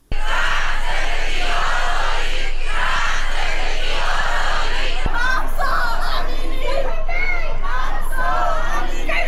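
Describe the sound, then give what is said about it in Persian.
Crowd at a US rally supporting the protests in Iran over Mahsa Amini's death, chanting slogans in unison. The shouts are loud, rhythmic and repeated over constant crowd noise. “این سخنان جمعیت حاضر در این تجمع بود که شعارهای همچون مرگ بر استبداد، زنده باد ایران و زن زندگی آزادی سر می دادند.”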